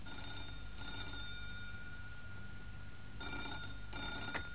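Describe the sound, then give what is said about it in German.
A telephone bell rings twice, each ring a pair of quick trilling bursts separated by a longer gap, fairly faint over a steady background hiss. “Kurz nach 11 Uhr klingelte dann mein Telefon.”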